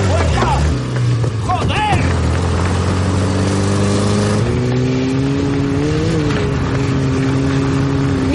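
A car accelerating away, its loud engine drone holding steady and then stepping up in pitch partway through as it pulls off.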